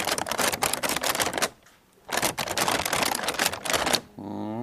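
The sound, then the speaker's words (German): Crinkling of the transparent paper on a paper lantern, heard as two bursts of dense, crisp crackling separated by a short pause, after which a voice begins. “Ich habe jetzt in der Hand eine Laterne und das ist das Transparentpapier”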